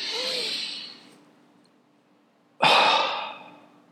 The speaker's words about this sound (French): Juste prends une bonne inspiration